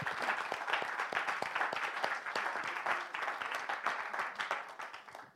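Applause from an audience at a church gathering: dense, steady clapping throughout that thins and fades slightly at the end.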